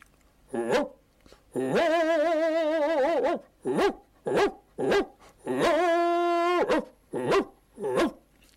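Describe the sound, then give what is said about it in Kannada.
A human voice imitates a big dog barking, with a string of short, gruff barks and two long, drawn-out howling barks in between, loud against silent gaps. “ನಾಯಿ ಬೊಗಳುವುದಂದರೆ, ದೊಡ್ಡ ನಾಯಿ ಬೊಗಳುವುದಂದರೆ”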